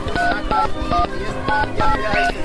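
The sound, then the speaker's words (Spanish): Touch-tone beeps ring out as a telephone number is dialed to call friends, a quick series of short, clear tones at shifting pitches with no talking. “Se asustó y llamó a sus amigas por teléfono.”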